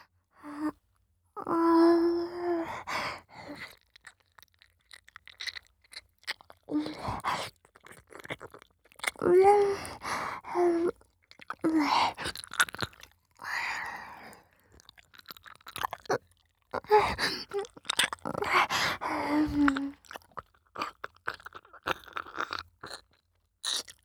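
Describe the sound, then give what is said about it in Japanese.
Wet ear-licking mouth sounds: many soft, squishy smacks and slurps come in uneven bursts, with faint breathy vocal sounds mixed in. “私ももっとベロベロしてあげる。”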